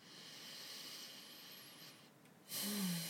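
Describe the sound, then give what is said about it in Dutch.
A slow intake of breath through both nostrils during a guided breathing exercise, a soft steady airy hiss that swells into a louder, fuller inhale near the end, faint and alone without talk. “Dus je ademt nu door beide neusgaten in.”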